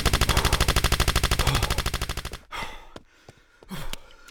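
Automatic gunfire in a horror audio drama: a long, rapid burst of loud, evenly spaced shots, followed by scattered clattering and softer noises.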